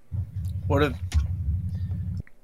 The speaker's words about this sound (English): What was that? It's my neighbor's driving in his yard.